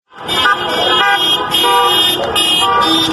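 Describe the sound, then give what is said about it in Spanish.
Car horns honking in protest in Córdoba province, many overlapping horn blasts in a loud, sustained chorus with a few brief gaps, tones stacked and clashing at different pitches. “En la provincia de Córdoba se pasó de los aplausos en reconocimiento a los trabajadores y trabajadoras de la salud a los bocinazos repudiando su criminalización.”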